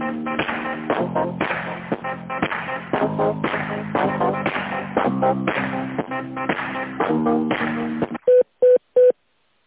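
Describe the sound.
Telephone keypad tones on a phone line: three short, even beeps close together at the end, following a longer stretch of steady, shifting tonal sound.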